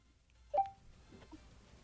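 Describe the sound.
A single short phone keypad tone sounds while a call is being placed. It is a brief, clear beep that stands out over a faint, low background hum.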